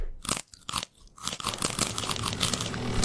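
Crunchy chewing on wood in Bremerhaven starts with a few separate bites, then turns into dense, continuous gnawing and crunching, heard alone without talk.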